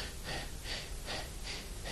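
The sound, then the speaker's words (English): A voice imitates a child's laboured breathing: about five rasping breaths in a quick, steady rhythm, each a breathy hiss, moderately loud and continuous over two seconds. “And his breathing was like,”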